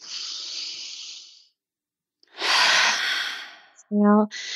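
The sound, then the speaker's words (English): A deep breath in during a guided relaxation exercise: two long, airy breathing rushes separated by a short silence, then a brief voiced sound at the end. “Now take a nice deep breath in.”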